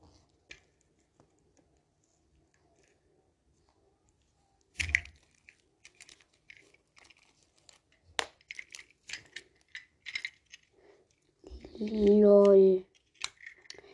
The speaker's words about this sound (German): Dieses Ding muss hier weg, diese Folie zum Beschützen der Uhr.